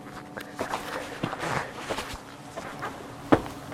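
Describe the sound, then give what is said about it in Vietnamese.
Footsteps of someone walking behind in the gym of the old Brushy Mountain Penitentiary, a few faint irregular steps with one sharper knock near the end. “Mình mới nghe tiếng ai đi đằng sau mình á.”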